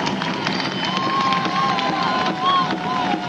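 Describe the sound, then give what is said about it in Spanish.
Crowd cheering and applauding at a rally, a dense, steady roar of many voices and claps that holds loud for the whole stretch without a break. “Un aplauso muy fuerte a todos los compañeros del interior”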